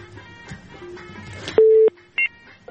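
Telephone line tones as a call is connected: faint background sounds give way to a loud, steady low tone lasting about a third of a second, followed by a short, higher beep.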